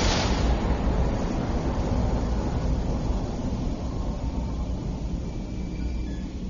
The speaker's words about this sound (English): Powering up the super string vibrational sequencer... Strap yourself in. Firing rocket tubes on 3, 2, 1.